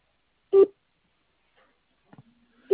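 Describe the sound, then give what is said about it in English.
Short electronic telephone ringing tones sound alone: one clear buzzing burst, a long silence with a faint, thin tone, then a second burst at the end. “Oh, it's ringing now.”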